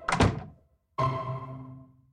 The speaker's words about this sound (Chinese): 宋七云看房门被关上